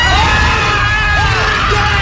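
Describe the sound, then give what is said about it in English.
Terrified screaming: loud, shrill, sustained shrieks of fear that hold steady for about two seconds with no pause, harsh and strained at high pitch. “they're terrified. Yeah, it's a terrified scream.”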